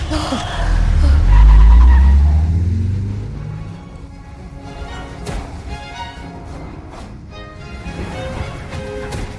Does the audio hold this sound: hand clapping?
no